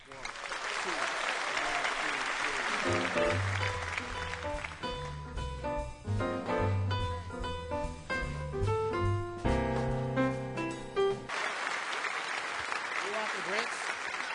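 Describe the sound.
An audience claps and cheers to welcome the What Do You Know Trio. Dense applause opens and closes the passage, with music playing loudly in between.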